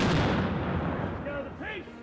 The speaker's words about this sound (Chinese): 十七世纪的火炮， 开火！